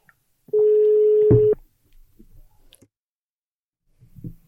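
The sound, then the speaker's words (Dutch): One ringback tone on an outgoing phone call: a steady, mid-pitched hum lasting about a second, followed by faint clicks and soft rustling, then a low murmur near the end. “Die weet wel dat hij gebeld wordt, volgens mij. Die weet zeker dat hij gebeld wordt.”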